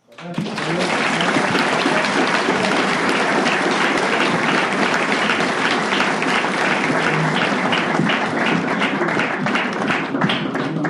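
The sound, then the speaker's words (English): Audience applause for a speaker at an Alcoholics Anonymous meeting: dense, loud clapping begins abruptly and holds steady for about eleven seconds. “Give her another hand.”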